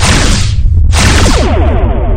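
Spaceship weapons firing during an attack on a colony depot, a loud, continuous roaring blast that briefly thins in the middle, then resumes with a fluttering, pulsing texture.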